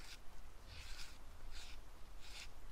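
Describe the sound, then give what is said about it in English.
A pink pen scratches across paper in four short bursts of dry, faint scraping strokes over a low steady background rumble. “Well, let me try the pen this time.”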